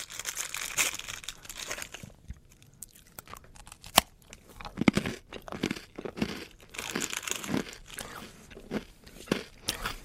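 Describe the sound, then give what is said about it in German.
Crunchy chewing of a WWI trench ration biscuit much like zwieback, with many irregular dry bites and crackly crunches rising and falling in loudness, no voices. “ich muss jetzt einfach mal so frech sein, jetzt auch mit offenem, bzw. mit vollem Mund zu sprechen. Es ist im Prinzip eigentlich, es schmeckt nach ganz normalem, herkömmlichen, schlichten Zwieback, hat im Prinzip keinen wesentlichen Geschmack.”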